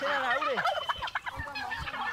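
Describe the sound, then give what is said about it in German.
Guinea fowl calling in a loud, dense chatter as they are herded toward their enclosure for the night, with harsh overlapping cries and a few sharper bursts throughout. “Und das ist so ein bisschen Auftrieb, also es ist ein bisschen so ein Action, weil es ist nicht so einfach, diese Vögel einzutreiben.”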